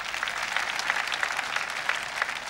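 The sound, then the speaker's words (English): A church audience applauds with dense, steady clapping from many hands that carries on evenly throughout. “Let us put our hands together for our Lord Jesus.”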